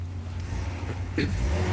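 A car engine rumbles low and steady as the vehicle drives off, growing a little louder toward the end.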